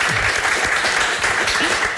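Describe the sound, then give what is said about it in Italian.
A crowd applauds with steady, dense clapping that holds at an even, fairly loud level throughout. “Applauso per Eva.”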